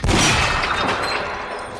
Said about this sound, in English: She breaks the chain with a gunshot.